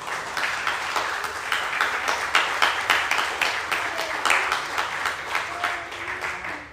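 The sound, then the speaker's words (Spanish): Congregation applause during a Spanish-language church sermon: sustained, steady clapping from many hands, loud and even throughout without a break. “Denle un aplauso.”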